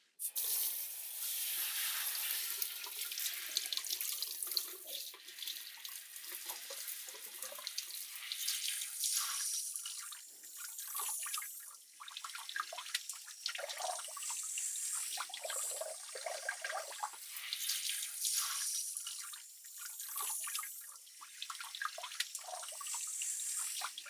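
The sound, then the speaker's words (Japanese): Water runs steadily to rinse shampoo out of someone's hair during a hair wash, a continuous bright rushing hiss that holds at an even level throughout, with no voices. “じゃあ洗い流しますね。”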